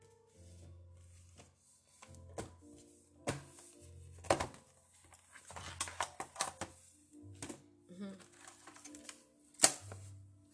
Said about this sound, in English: Get my angel cards.